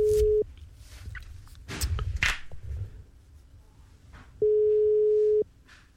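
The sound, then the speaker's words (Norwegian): An outgoing telephone call rings while waiting for a listener to answer. Two long, steady ringing tones at a single pitch are separated by a stretch of faint handling noise and rustle. “Vi får ringe neste som står på lista vår, og da skal det ringe igjen der ute I Radio Lytterland.”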